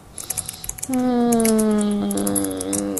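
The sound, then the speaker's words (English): Keys tap on a computer keyboard in a rapid, uneven stream of light clicks, partly masked by a loud, steady tonal hum that starts about a second in and holds to the end. “Oh, and the damn typing.”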